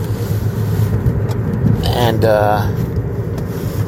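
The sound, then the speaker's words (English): A car's steady low road rumble and engine drone fill the cabin while it is being driven, loud and continuous throughout, with a voice briefly sounding over it midway. “In case you can't tell, I am driving.”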